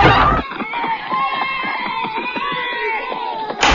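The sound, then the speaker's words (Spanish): Party noise from a neighbour's house: a loud crowd cheers and shouts, with children's voices among them. The shouting stays dense and steady, with a sharper burst at the start and end. “Mamá, en la casa del vecino hay una fiesta. ¿Puedo ir?”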